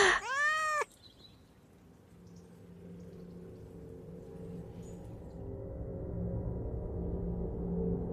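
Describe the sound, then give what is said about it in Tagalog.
A cat meowing as it rubs its nose against a sleeper's face: a single loud, drawn-out harmonic cry at the start, followed by a low, faint background hum that slowly grows. “Ginigising ako ng pusa. Ikinikis-kis ang nguso sa aking mukha habang umingiyaw.”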